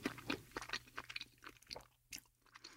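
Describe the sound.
A slice of juicy pear is chewed in many quick, moist, crunchy chews in an irregular rhythm. The sound is quiet and close, with no talk.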